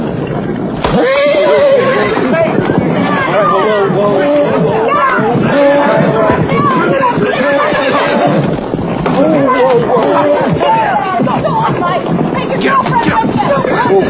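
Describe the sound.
A pony whinnies and neighs repeatedly, its shrill, wavering calls rising over continuous chatter and talking voices, loud and busy almost the whole way through.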